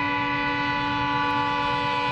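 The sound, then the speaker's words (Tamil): An approaching train sounds a steady horn, a loud chord of stacked tones that holds level for the full two seconds over a low rumble. “Train வேற வந்துட்டு இருக்குதா?”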